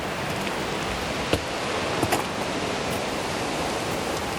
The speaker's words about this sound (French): le son puissant des vagues, le roulement des galets.